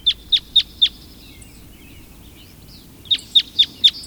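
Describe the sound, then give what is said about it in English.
Red crossbill calls come as sharp, high, clipped chirps in two evenly spaced bursts of four, separated by a quiet gap of about two seconds that holds only faint, thin twittering. “That's the sound of a red crossbill.”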